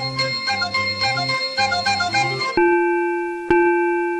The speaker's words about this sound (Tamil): காலையில யாரோ பெல் அடிக்கிற மாதிரி இருக்கு, என்னன்னு போய் பாரு.